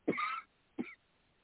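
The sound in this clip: A person gives two short coughs or throat clearings, the first fuller and longer and the second brief, with no speech around them.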